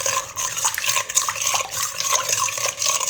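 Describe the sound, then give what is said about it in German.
About 350 millilitres of lukewarm water is poured for yeast dough and stirred in. A continuous wash of liquid runs throughout, with irregular scrapes and light clatter mixed in. “dann tue ich direkt so 350 Milliliter lauwarmes Wasser dazu. Nicht zu heiß, das ist ganz wichtig, sonst geht euch die Hefe da drin ein quasi. Dann rühren wir das Ganze vorne durch.”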